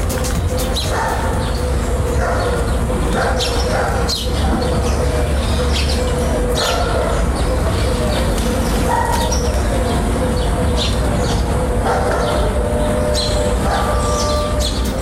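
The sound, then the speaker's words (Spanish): Dawn street ambience on a main avenue in Lorca, Spain, early in the morning before traffic arrives. Scattered bird chirps and calls ring out over a steady low background hum throughout. “El sonido de hoy nos llega desde Lorca, está grabado al amanecer en la Alameda de Ramón y Cajal, una de las arterias más conocidas de la Ciudad del Sol.”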